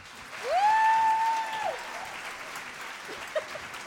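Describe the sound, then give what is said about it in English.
Applause greets a speaker as she comes up, with a loud rising whistle cutting through the clapping at the start. The whole burst fades within a couple of seconds to a quieter murmur. “Would you all give a really badass welcome for Courtney Simpkiss?”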